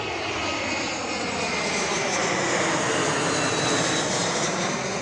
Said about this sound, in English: hold on, I'm by the airport